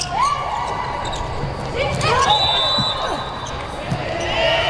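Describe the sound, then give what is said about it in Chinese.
A volleyball serve by the number 17 outside hitter during a match, with a ball strike or two heard under continuous crowd noise and a commentator talking throughout. “17号主攻手博格曼来率先发球”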